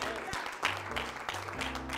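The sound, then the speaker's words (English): An audience claps hands in worship, a sustained wash of applause with a voice speaking over it and a steady low tone beneath. “Give him a hand clap for that.”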